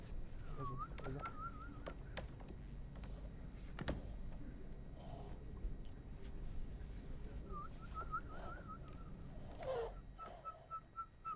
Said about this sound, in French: Alors, attends, on va choisir deux oiseaux.